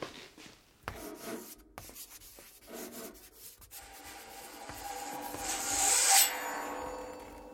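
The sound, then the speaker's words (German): Chalk scratches across a school blackboard in a series of uneven rubbing strokes, faint at first and then building into a louder, squeaky scrape near the end. “An die Tafel. Schreib den alten Namen von Göttingen an.”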